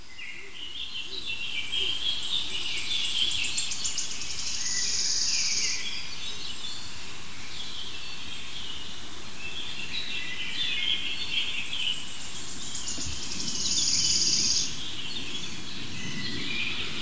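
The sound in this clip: Birdsong outdoors from a bird moving about near the microphone: repeated high, bright phrases rise and fade in bursts over a steady low rumble of background noise, with no talk.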